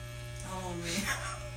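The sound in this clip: An electric shaver buzzes during a haircut, a steady, low mechanical hum with a constant drone that stays even in loudness throughout.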